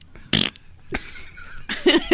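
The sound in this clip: A fart: one short, loud, raspy burst, followed by quieter scattered sounds.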